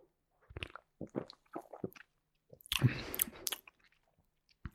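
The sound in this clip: Quiet, wet mouth sounds of someone tasting a sour-cherry flavoured product: soft chewing and smacking in short scattered bursts, with one louder, longer burst midway and near-silence between.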